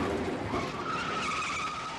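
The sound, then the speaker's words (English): Tire squeal from the car chase in the 1971 New York film The French Connection: a loud, sustained screech rides over a dense roar of engine and road noise, steady for the whole stretch with no voices. “Quick cuts and that car chase.”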